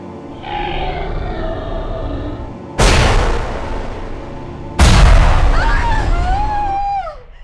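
Two loud gunshots ring out a couple of seconds apart, each a sharp crack trailing into a long, rumbling decay. After the second shot, a high wailing tone slides downward in pitch.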